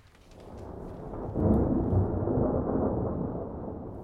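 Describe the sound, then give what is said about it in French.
Low, rolling thunder of a thunderstorm swells up from quiet, crests sharply, then rumbles on steadily at moderate loudness with no voices. “Retrouvailles sur fond d'orage.”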